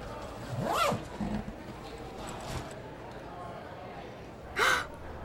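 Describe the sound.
A bag's zipper being pulled open, one longer zip near the start and a short, quick zip near the end, with soft rustling and faint voices between them.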